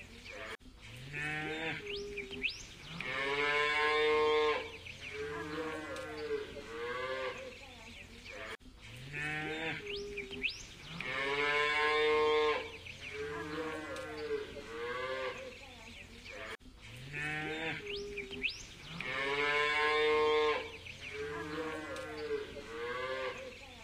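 A cow mooing in a video game: a long, low, droning moo that repeats three times as an identical loop, loud and steady, with brief gaps between repeats and no talk over it.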